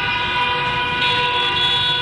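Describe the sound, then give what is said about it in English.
Car horns honking in a Tehran street protest: a loud, dense, continuous blare of overlapping horn tones that holds steady for the whole stretch, with no voices. “That afternoon, cars began honking as they turned off their headlights in protest.”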